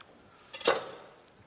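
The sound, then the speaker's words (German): A kitchen knife strikes once as it cuts through the green tops of onions, a brief, crisp chop that briefly stands out from quiet surroundings. “Das schneiden wir ganz einfach. Nehmen wir uns nur das Grüne daher, dadurch, dass wir hier die rote Zwiebel schon haben.”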